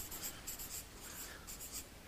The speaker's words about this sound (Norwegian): Jeg tegner en trekant. Sånn. Så skriver jeg sønnen her.